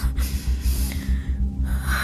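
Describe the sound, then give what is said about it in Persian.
A deep breath drawn in before blowing out birthday candles, a single strong gasping inhale over a steady low rhythmic background. “نفس بکش، یه نفس عمیق.”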